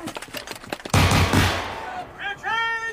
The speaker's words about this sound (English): Muskets, gentlemen. Fire. More muskets, Grimaud. Yes, sir.